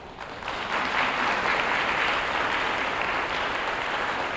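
Applause from a group celebrating a retirement after 29 years in public education, dense, even clapping that swells in the first half second and then holds steady and full throughout.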